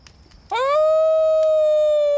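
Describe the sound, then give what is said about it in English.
A human voice imitates a wolf howling at the moon in one long howl that swoops up sharply at the start, then holds a steady, loud pitch to the end. “Let's all bay at the moon. What? You know, howl like a wolf.”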